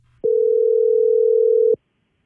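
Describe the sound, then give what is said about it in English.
A telephone dial tone while a number is being called. One unbroken, mid-pitched tone lasts about a second and a half, starting and stopping abruptly, with no voices. “We've got Emily's number here and let's dial her up.”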